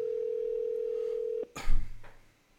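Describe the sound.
Telephone dial tone heard while placing a call, a steady single-pitch hum lasting about a second and a half before cutting off, followed by a brief clatter and a low rumble that fades out.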